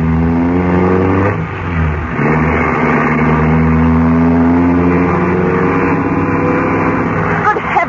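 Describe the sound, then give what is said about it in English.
A car engine drones as the car speeds through narrow streets. The sound is loud and steady, with a brief dip partway through before the engine swells again. “Going to drive through these narrow streets at this speed, is he?”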